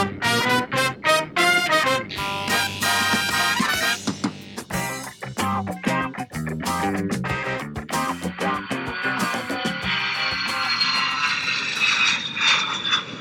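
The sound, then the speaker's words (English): Airplane engine noise in cruising flight gives a continuous loud roar, with a brighter hissing whoosh building toward the end. “We are currently cruising at an altitude of 35,000 feet, an airspeed of 450 miles per hour.”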